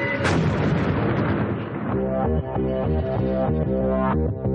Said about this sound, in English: You're about to witness the mother of all bombs.